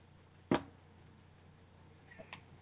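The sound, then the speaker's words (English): A caller on a phone line makes a sharp smacking sound. One crisp, loud click stands out against a quiet background and is later followed by a couple of fainter ticks. “I don't hear anything. I hear smacking.”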